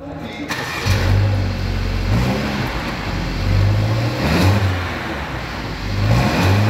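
A car engine starts with a burst, then idles with a low steady rumble while several revs rise and fall in pitch over it.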